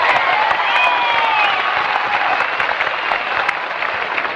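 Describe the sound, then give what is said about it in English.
A Grand Ole Opry audience gives Hank Locklin a loud, dense round of applause on his first appearance there. The clapping roars evenly throughout, with a whistle sliding over the top early on. “He's making his first appearance on Grand Ole Opry tonight, so neighbors, let's give him a big welcome. Hank Locklin!”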